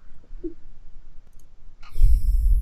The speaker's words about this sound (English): So let me go ahead and click on that.